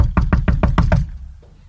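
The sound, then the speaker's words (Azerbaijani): Knocking on a door: six quick, evenly spaced, sharp knocks within about a second, then a fading quiet tail. “qapını döyür.”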